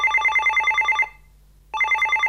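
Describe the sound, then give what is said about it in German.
A telephone rings in two bursts of rapid, trilling bell tone separated by a short silent gap, loud and clear with nothing else heard. “steht bei Stefan Winter das Telefon nicht mehr still”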